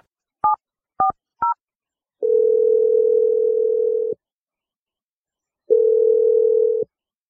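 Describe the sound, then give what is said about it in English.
Telephone dialing a number and ringing: three short, quick dialing tones, then after a pause two long, steady ringing tones separated by a gap of silence. “Here we go. I'm going to dial Erica's number. Let's do this.”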